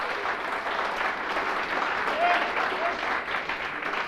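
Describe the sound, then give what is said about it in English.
An audience applauds to welcome a bluegrass mandolin player, with steady, dense clapping that holds at an even level throughout. “Make him welcome from Winchester, Virginia, David McLaughlin. Nice hand for David.”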